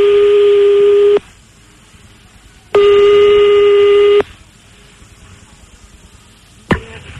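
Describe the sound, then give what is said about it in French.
A telephone line ringing as a call is placed, with two long, steady ringing tones separated by a pause, then a sharp click near the end. “Bon, on rappelle une dernière fois, on rappelle Jeff, on rappelle un marabout, le marabout, là. Ok, on le rappelle.”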